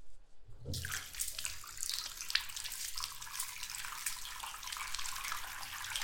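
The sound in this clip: Water running to fill a bath: a steady, loud rushing gush that starts abruptly after a brief quiet moment and continues unbroken to the end, with no talk.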